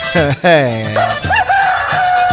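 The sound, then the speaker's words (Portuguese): A rooster crows at dawn with one long, loud, drawn-out cock-a-doodle-doo, its strongly harmonic call ringing clearly. “Ô galo da gota serena, né?”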